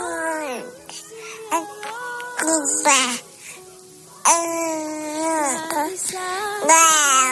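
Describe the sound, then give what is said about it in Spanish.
A baby babbling in high-pitched, sing-song bursts, with the pitch sliding up and down through several short runs of syllables separated by brief pauses. The babbling is loud, clear and alone. “No creo. Y no lo creo porque el balbuceo de un bebé, fíjate, bueno, pues eso siempre nos enternece a todos, ¿no?”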